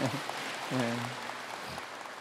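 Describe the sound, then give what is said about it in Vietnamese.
Applause from a gathered assembly of Buddhist practitioners at a Dharma talk: dense, sustained clapping runs steadily through the whole stretch, with a brief voiced sound rising over it partway through. “Xin thưởng cho đại chúng một tràng vỗ tay.”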